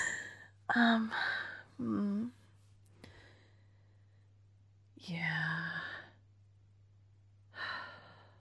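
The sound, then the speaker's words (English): Heavy, wheezing breaths in several raspy, breathy bursts, partly voiced like gasps and sighs. Quiet pauses separate them, and there is no clear speech. “I'm wheezing.”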